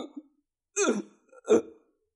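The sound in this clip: A voice imitates gasping and choking, as if unable to breathe: a few strained, throaty bursts of breath separated by short silences, the middle two louder and harsher than the faint catches around them.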